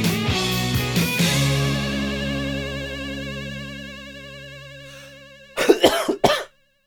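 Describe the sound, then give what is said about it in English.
A short burst of harsh coughs comes right after sustained music fades out; the coughing is abrupt and loud against the quiet. “Still not over that cough.”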